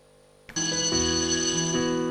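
An electric school bell rings at a high-plateau school in Qinghai. It cuts in sharply after a moment of near silence and holds as a loud, steady, bright ringing tone with a rich buzzy timbre and no break.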